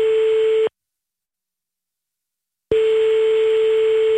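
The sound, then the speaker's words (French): An outgoing telephone call is placed, sounding a steady single-pitched tone. The tone breaks off for about two seconds, then returns at the same pitch and loudness. “C'est parti, on appelle grand-mère Michèle, la grand-maman de Calice.”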